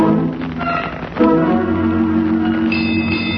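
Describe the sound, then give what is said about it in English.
Bells strike eight bells: a deep, sustained ringing tone swells in partway through and keeps sounding, and a higher ringing note joins near the end over a steady low hiss. “Here come the bells.”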